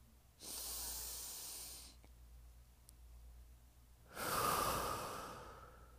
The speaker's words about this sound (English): Take a deep breath on that one.